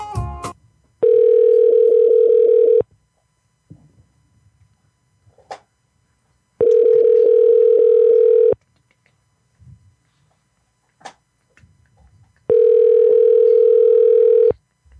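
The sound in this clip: Ringback tone of a telephone call to a number, heard from the caller's end: three steady, loud, mid-pitched buzzing tones, each about two seconds long, separated by roughly four-second silences with faint rustles.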